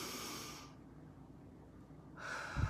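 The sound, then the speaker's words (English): Slow, deep breathing: a long airy breath at the start, a quiet pause, then another breath swelling near the end with a brief low snort, with no talk over it. “Now just breathe. Deep breathe with me right now and try to keep doing it during this entire presentation.”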